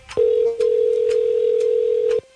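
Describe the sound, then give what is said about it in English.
A phone line gives a ringback tone after a number is dialed. One long, steady, mid-pitched tone plays with a brief dip near its start, then cuts off cleanly. “It's one of those weird rings. It did like a like it doesn't know if it wants to go to voicemail or not.”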